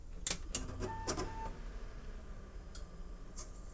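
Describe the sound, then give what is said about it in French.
A desktop computer is powered back on after a dust cleaning, giving a few sharp clicks and brief electronic tones in the first second and a half, then a faint steady hum broken by a couple of soft later clicks. “Alors, on va réallumer la machine. Pour voir si on n'a pas rien, si on n'a rien débranché.”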